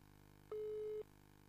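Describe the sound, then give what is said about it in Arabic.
A telephone busy tone after a call is cut off on a call-in line: a single steady, mid-low electronic beep lasting about half a second, faint against a quiet, constant background hum. “قطع اتصال، راح ننتظره ولا يعني نشرع في الإجابة وخلاص؟”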